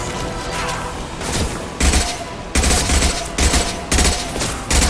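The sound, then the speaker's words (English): Video game gunfire while shooting at an enemy: loud rapid automatic bursts, a few separate volleys that come sharper and heavier toward the end, with no talk. “Shoot at a Krogan, and there we go.”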